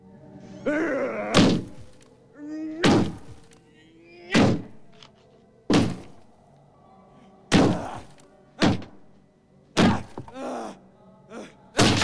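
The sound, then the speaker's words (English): Repeated heavy, dull thuds from a man punching through a wall, landing as a steady series of loud blows with short pauses between them. “The man finally succeeds in punching a hole in the wall.”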